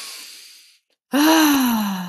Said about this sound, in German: Wir lassen das mal alles raus. Wir atmen mal ein.